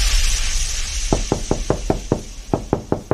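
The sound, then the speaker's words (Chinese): Knocking on a door: ten quick, evenly spaced knocks in two bursts, six and then four, over a steady background hiss. “哎呦，这谁呀？没事老敲门。”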